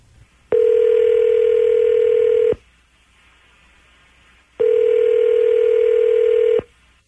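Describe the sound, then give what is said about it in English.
Telephone ringing tones on a call being placed: two long, steady, loud mid-pitched tones of about two seconds each, separated by a two-second silence, with no voices. “dial him up. Okay, here we go.”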